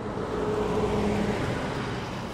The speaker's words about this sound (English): So we point our car down I-75 towards our next stop.